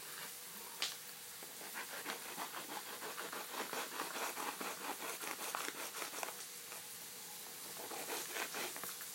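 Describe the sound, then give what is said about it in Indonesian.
Crinkling and tearing of a plastic sauce packet being opened, a long run of many small crackles and rips, faint throughout with no voices. “aku buka lagi ini sausnya”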